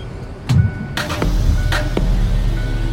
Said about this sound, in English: I'm a slide back into the driver's seat, and I fasten my seatbelt.